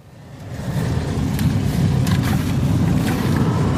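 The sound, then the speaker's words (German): Sugar beet harvesting machines drive over fields in Herzogtum Lauenburg, northern Germany, giving a steady, low engine rumble that swells up in the first second and then holds, with faint, brief, higher ticks on top. “Die Rodungsmaschinen fahren im Kreis Herzogtum Lauenburg auf etwa 1000 Hektar Anbaufläche über die Felder. Die Landwirte ernten zurzeit Zuckerrüben.”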